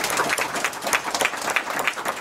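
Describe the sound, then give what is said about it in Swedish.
Audience applause at a meeting, rewarding answers to a question, with individual claps standing out in an uneven, moderately loud patter from a modest group of people. “En applåd för alla svar.”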